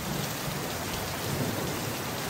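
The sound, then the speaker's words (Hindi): Rain starting again and pouring down steadily, a dense, continuous hiss of drops that stays loud and even throughout with no voices. “बारिश तो फिर शुरू हो गई है।”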